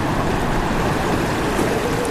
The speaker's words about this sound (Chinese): 水潭的瀑布依旧是那样壮观，那样令人震撼